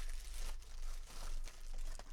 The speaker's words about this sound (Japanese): ちょっと袋開けていこうと思います。開封。